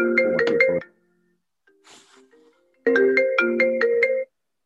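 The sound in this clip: Mobile phone ringtone, a bright electronic melody of quick stepped notes, plays loudly in two bursts separated by a short quiet gap with faint sounds in it.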